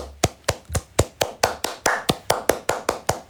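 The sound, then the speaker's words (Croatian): Hands clapping in a slow, steady rhythm, more than a dozen crisp, evenly spaced claps with no voices over them. “Sad ćeš sam pljeskati. Sad ćeš pljeskati. Sad. Koliko dugo sad? Još plješći.”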